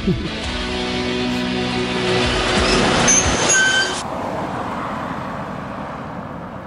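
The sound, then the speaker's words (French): A delivery driver's vehicle rolling along a road through Misiones province, Argentina: a steady broad road rumble with a layered engine hum that drops away after about four seconds, leaving a softer roar. “On roule pour traverser la province de Misiones.”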